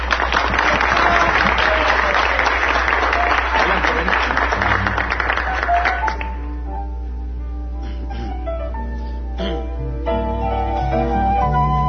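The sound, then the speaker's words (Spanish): Enthusiastic applause greets a female artist on a radio program, a loud, dense crowd of claps lasting about six seconds before it gives way to music with sustained tones. “Un aplauso para ella.”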